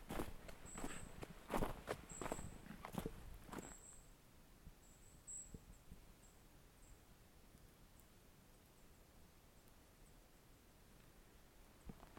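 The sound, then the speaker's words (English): Footsteps crunch on gravel on a woodland path, a run of loud steps over the first few seconds, then the steps stop. Quiet outdoor hush and faint, high, thin chirping follow. “And my footprints sound quite loud. I'm on the gravel, I'm getting under the moss.”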